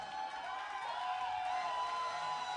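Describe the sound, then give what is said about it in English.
Audience cheering and applauding in a standing ovation at a live show at SXSW 2015: a steady, dense wash of crowd noise that holds at an even loudness throughout. “That is a 37% standing ovation.”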